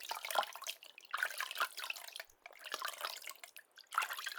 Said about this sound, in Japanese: 頭の後ろもよく濡らして、